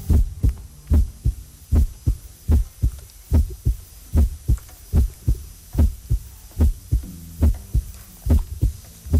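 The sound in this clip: Recorded human heartbeats sound in an art installation built from many people's hearts. The low, muffled thumps repeat at a steady, regular pace, with a soft hum underneath.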